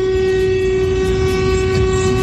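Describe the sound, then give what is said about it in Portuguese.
A vehicle horn blares during a mass honking event, one loud, steady blast that holds the same pitch for the whole clip, with no talking over it. “já vem com a buzina dele já”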